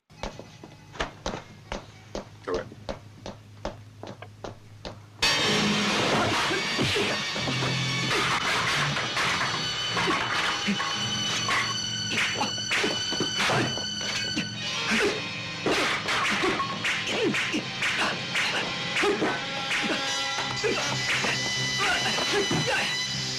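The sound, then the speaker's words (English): A dojo scene from a 1979 film begins with about five seconds of sharp taps and footsteps, then a sudden loud crash as a sign is destroyed, followed by dense, continuous whacks, swishes and clattering. “I threw a little clip in of the beginning where he destroys the sign, but here we go.”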